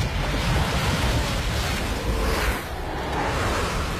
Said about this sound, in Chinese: 啊，有暴风雪！